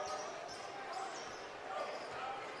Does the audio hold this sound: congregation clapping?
no